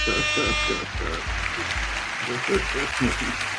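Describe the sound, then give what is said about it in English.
Sound effects of a horn and applause. A high horn tone plays at the start, followed by a run of repeated low honking bursts over a bed of clapping. “horn and applause”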